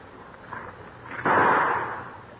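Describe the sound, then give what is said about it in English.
A single gunshot from a cocked .38 handgun fired at a tree: a sharp, loud crack that hangs and decays over about a second, with a dull, muffled tone lacking treble. “Oh, I shot way over it. The barrel kicked up. I'm going to shoot again.”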